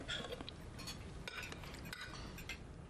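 Dishes and cutlery clink faintly as food is served, with several light, scattered chinks and scrapes over a low background and no talk.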